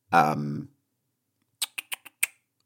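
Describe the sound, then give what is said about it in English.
A voice imitates a dolphin, first with a short, high, squeaky whistle and then with five sharp, quick clicks after a brief pause. “Made a dolphin noise there.”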